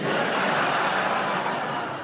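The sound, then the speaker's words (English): A studio audience boos after an incorrect challenge in a panel word game. A dense, steady wash of crowd voices holds for about two seconds, then eases slightly at the end. “So who are they booing? You or Clement? Me, I expect.”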